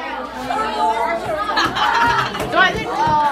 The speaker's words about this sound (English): That is the sound of about 40 middle schoolers in California working on their entry for the NPR Student Podcast Challenge.